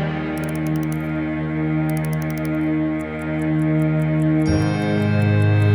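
Small clockwork with gears and springs being wound, its ratchet ticking in quick rhythmic bursts of crisp clicks over a steady sustained tonal background.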